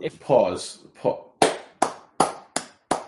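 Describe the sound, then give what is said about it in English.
Hand clapping as a round of applause: five sharp, evenly spaced claps in a slow rhythm follow a brief spoken phrase at the start. “I'm just giving a round of applause”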